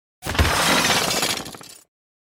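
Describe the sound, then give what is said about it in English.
A huge mirrored ball crashes to the ground and shatters in one loud, dense burst of breaking glass, crunching and tinkling for over a second before cutting off. “The enormous mirrored ball plummeted to the ground below, obliterating itself as it crushed the spinning figure beneath it.”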